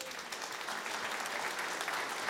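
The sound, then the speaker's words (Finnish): Audience applause welcoming a contestant onto the stage at a competition event: a steady, dense wash of clapping from many hands that holds an even level throughout, with no voices standing out. “Ja aplodit voitolle.”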